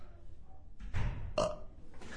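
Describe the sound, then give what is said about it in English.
A burp sound effect: faint, rough, gurgling bursts over low background noise, with the strongest belch in the middle. “We've got two burps sound effects.”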